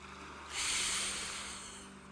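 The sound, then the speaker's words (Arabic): A single slow, deep breath during a guided meditation for deep sleep: an airy, breathy hiss that swells in and lingers for over a second before easing off, heard alone without talk. “شهيق زفير بالراحة شهيق”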